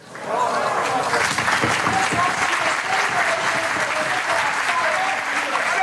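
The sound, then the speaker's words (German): Steady, loud applause fills a hall in Germany as the last signal from a space probe arrives. Dense clapping swells quickly and holds evenly for several seconds. “Aber wir haben dafür einen Ton, wie das getönt hat, als das letzte Signal eingetroffen ist in Deutschland.”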